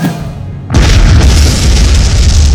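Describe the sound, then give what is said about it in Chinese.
A loud explosive bang with sparks flying, set off by a lighter. A sudden blast erupts after a brief quieter moment, then a heavy, sustained roaring rumble continues to the end. “突然砰的一声巨响，火星四溅。”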